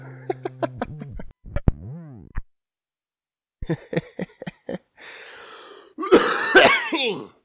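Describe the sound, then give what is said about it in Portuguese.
A smoker's chronic cough, with several short, sharp hacking bursts in a row, then a pause before a longer, harsh, raspy coughing fit near the end. “eu voltei a fumar e minha tosse voltou, a minha tosse crônica que não passa nunca”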